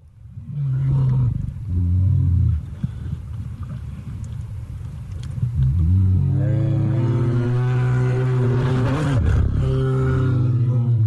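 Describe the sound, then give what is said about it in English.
Grizzly bears in Yellowstone National Park give deep, drawn-out growling roars. They come in loud sustained bursts, with a longer, rougher stretch of overlapping growls in the second half. “Here's the sound of some of Yellowstone's most iconic residents, the grizzly bears.”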